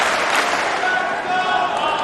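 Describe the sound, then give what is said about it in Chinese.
An arena crowd cheering for a player, a loud continuous roar of voices mixed with clapping that stays dense and even without clear breaks. “现场在喊着费里的名字，观众呢在给他加油鼓劲儿。”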